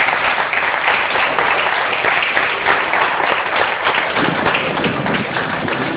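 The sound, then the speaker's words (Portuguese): A church audience applauding, a continuous wash of many overlapping claps at an even level throughout, with a muffled, dull tone. “E aplaudir a Jesus por isso.”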